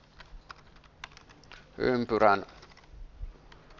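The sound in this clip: Keys clicking on a computer keyboard while code is typed and a keyboard shortcut is pressed. Scattered light taps are spread across the moment, with a short stretch of speech in the middle.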